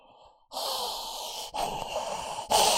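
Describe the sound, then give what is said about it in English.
A person imitates heavy breathing while waiting for a reply, pushing out a few loud, rasping breaths in quick succession after a brief quiet start. “That's how they breathe while they're waiting for you to reply with a link.”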